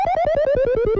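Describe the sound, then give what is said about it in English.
The dog from the Nintendo game Duck Hunt laughs as an electronic chuckle, a rapid chain of about ten bright, buzzy blips whose pitch steps gradually downward over one second. “That's the sound of the dog in Duck Hunt laughing at you when you lose the game. Duck Hunt was one of the handful of games that used the Nintendo Zapper Gun,”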